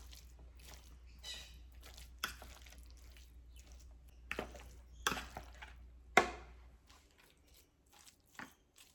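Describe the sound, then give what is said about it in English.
A fork flaking steamed fish apart in a Varoma steaming dish: sparse, faint clicks, taps and soft scrapes of metal against the dish, with several sharper knocks spaced irregularly across quiet stretches. “We can flake that in the Varoma dish. That way, if there's too much moisture, it will just drip down into the lid. So I'll do that. Just basically stir it with a fork and it will all flake apart.”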